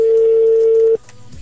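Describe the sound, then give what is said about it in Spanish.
Ringing of an outgoing telephone call: a single steady, mid-pitched electronic tone holding for about a second, then stopping abruptly and leaving faint low noise. “Ahí está, está sonando. Está sonando en este momento. Ok, ahí está sonando.”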